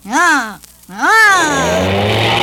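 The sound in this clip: A voice imitates a big red Firebird car, making two revving engine sweeps. The first rises and falls in pitch, and after a short pause the second climbs again before trailing off into a rough, sustained drone.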